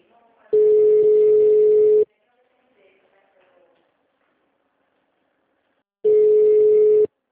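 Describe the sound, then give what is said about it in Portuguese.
Telephone line tones play while a call is being transferred: two long, steady beeps at a single pitch, the first about 1.5 seconds and the second about 1 second, separated by a long, nearly silent gap with faint sounds. “Por favor, aguarde. Estamos transferindo a sua ligação.”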